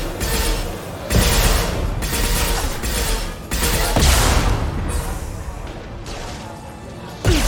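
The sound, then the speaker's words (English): A rocket launcher is fired at the player in a video game: a few heavy, abrupt booming blasts cut through dense, continuous crashing and crackling battle noise that stays loud throughout. “Someone shot a rocket launcher at us. I don't care for that one bit.”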